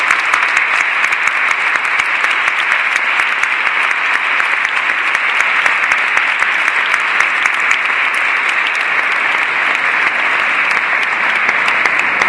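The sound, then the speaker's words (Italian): Dense, steady applause from an audience at a religious gathering continues evenly for about twelve seconds without rising or fading. “per cui l'applauso che facciamo a Suor Katia è per il Signore Gesù”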